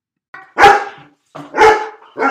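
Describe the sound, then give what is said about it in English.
A dog barks three times, loud and sharp, with even pauses between the barks. The last bark is cut off. “From now on, every time you hear this bark,”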